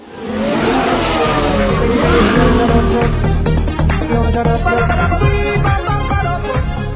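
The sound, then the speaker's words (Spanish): A luxury car drives up with a loud, roaring engine that rises in pitch over the first couple of seconds and then holds a sustained, powerful rumble. “Por ahí viene la típica niña de papá con su coche de lujo.”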